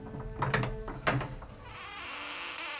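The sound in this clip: A door being unlatched and opened: two distinct mechanical clunks of the latch, followed by a sustained, soft noisy wash.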